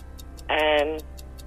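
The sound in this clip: A quiz show countdown clock ticks at an even, fast pace, with sharp, crisp ticks about five per second. A voice speaks briefly over the middle of the run.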